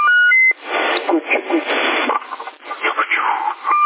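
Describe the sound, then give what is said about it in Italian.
A Cobra CB radio set gives a quick two-tone double beep, then band-limited radio voice talk follows, and a single short beep comes from the set near the end. “bip doppio più il bip dell'apparato.”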